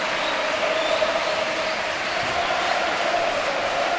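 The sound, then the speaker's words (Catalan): A football stadium crowd singing at a match, a dense, steady roar of many voices that stays at an even loudness without breaks. “Canta el públic.”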